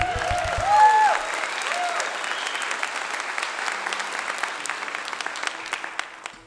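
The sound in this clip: Audience applause welcomes a banjo player onto the stage at a live show. It is a dense, steady clatter of clapping that swells at the start and then holds evenly to the end.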